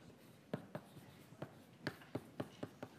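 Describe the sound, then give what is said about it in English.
Handwriting strokes scratch out a formula for a coordination complex's charge during a chemistry lecture on crystal field theory, with a faint series of short, separate strokes in an uneven rhythm. “So we can write this out here.”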